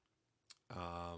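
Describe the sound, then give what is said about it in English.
A single short mouse click, made to open the rest of a text, sounds sharply against near silence and is followed soon after by a voice starting to speak. “I have to click to read the rest of this one.”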